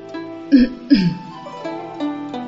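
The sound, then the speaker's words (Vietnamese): A man gives a dry cough: two short throaty bursts, then a low voiced clearing sound, with no words spoken. “Bao Trưởng bên cạnh ho khan một tiếng, nhìn Công Tôn”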